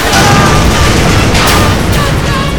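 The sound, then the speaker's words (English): Loud, heavy blasts exploding on impact with fighters and landing craft during an invasion, a continuous rumbling barrage of booms with dense low-end roar and no break. “The blasts traverse every obstacle and explode on impact with the fighters.”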